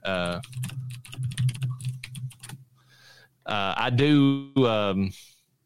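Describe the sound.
Quick typing on a computer keyboard while searching IMDb, a rapid run of light clicks lasting a couple of seconds, with a voice talking just before and after.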